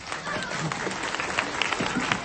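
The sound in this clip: An audience at a children's rosary gathering applauds a five-year-old girl, with a steady crackle of clapping mixed with voices.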